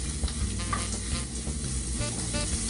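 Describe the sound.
Steady sizzling as sausage, spinach, goat cheese and egg scramble brown in a frying pan. A continuous crackling fry with no talk.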